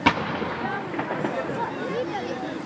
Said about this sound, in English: For those of you wondering what that was, that's a salute to the Indonesian Prime Minister being fired from just outside the town of London.